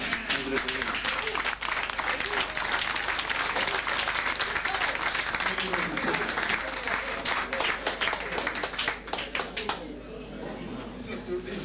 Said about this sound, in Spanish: vamos a dar otro aplauso